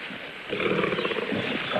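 A lioness roars and snarls while fighting a man armed with a knife on a jungle floor. After a quieter opening, a deep, rough roaring growl starts and continues loudly to the end.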